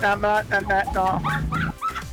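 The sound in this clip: A dog gives a run of high, tonal whimpers and yips in quick succession, with a short pause near the end.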